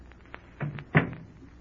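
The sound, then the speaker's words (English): A door is shut, making a couple of dull thuds with no talk. The second thud is sharper and louder. “Let me close this door.”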